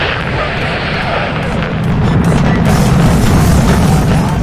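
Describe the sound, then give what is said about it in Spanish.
A grenade explosion gives a loud, deep, rumbling boom with heavy roaring noise that holds steady throughout. “Lanzamos granada. ¿Lanzamos granada? Perfecto. Primera granada. 3, 2, 1.”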